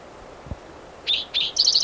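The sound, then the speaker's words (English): Short high calls attributed to a red-tailed hawk overhead, rising in a few bright bursts, the last a rapid stuttering series, after a soft low thump. “Red-tailed hawk overhead.”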